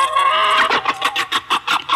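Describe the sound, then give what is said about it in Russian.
A hen cackles after laying an egg: a drawn-out squawk breaks into a run of sharp, rhythmic clucking calls, loud and alone. “Чего это она так раскричалась? Яйцо снесла и хвалится.”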